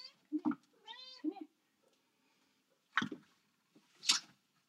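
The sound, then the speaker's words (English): A pet cat meows, one drawn-out tonal meow followed by a few shorter, sharper cries with quiet gaps between. “you may hear my other cat in the background. She's constantly meowing and looking for gratitude.”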